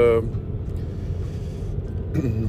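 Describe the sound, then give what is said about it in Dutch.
Steady low road rumble inside a car being driven toward Naaldwijk, a continuous dense drone with little variation, with brief voice-like sounds at the start and near the end. “Ik rij nu naar Naaldwijk. En dat is twee uur en, en een kwartier”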